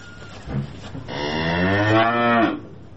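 One long, drawn-out moo from cattle on a pasture, a low, harmonic-rich bellow that swells and then fades, preceded by a fainter short sound.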